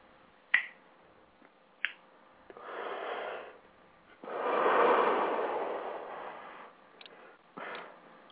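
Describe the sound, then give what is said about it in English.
A Zippo lighter flicked open and lit: sharp metallic clicks, then longer rushing hiss-like swells, with a few more clicks near the end. “Well, for me, that's my old Zippo, so I got a new one coming, so I want to be a lot better.”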